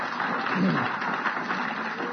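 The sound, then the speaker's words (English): A church audience claps together as a clap offering, a steady, moderately loud wash of many hands with voices faintly mixed in throughout. “Why don't we give the Lord a big clap offering right now?”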